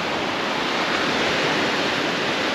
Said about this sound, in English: I've got the van practically on the beach and just sitting there and relaxing.